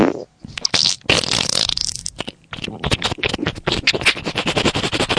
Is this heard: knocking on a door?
no